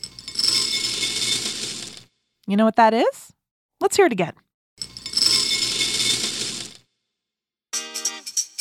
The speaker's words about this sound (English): Is it cereal? It's cereal. If you or your grown-up is ever too tired in the morning to cook up a big breakfast, you can just pour some cereal.